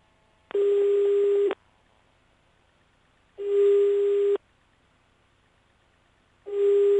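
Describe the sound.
Telephone line tones: a loud, steady single-pitched beep lasting about a second, repeated three times with gaps of roughly two seconds, alone without voices.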